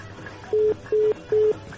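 Three short, even beeps from a telephone keypad as a number is dialed, evenly spaced at a steady pitch over a soft background hiss.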